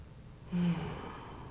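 A deep breath drawn in during a guided breathing exercise: one short, breathy rush of air that swells briefly, then fades into quiet.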